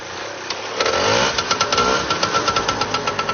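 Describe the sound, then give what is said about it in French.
A vintage, all-original moped's small engine starts with a brief low rise, then settles into a rapid, regular putter of sharp pulses that continues to the end, moderately loud, with no talk. “Et on va démarrer parce que c'est vrai que le bruit d'une mobilette, ça peut rendre des gens nostalgiques.”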